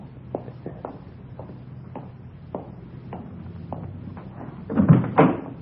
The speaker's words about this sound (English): Now, will you raise that handle on the other side so I can get in?